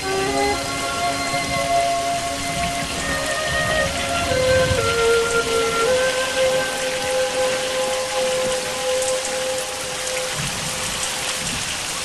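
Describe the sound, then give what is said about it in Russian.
Steady rain falls at a riverbank, an even, continuous hiss of drops on surfaces throughout, with faint sustained tones running underneath. “Идет дождь.”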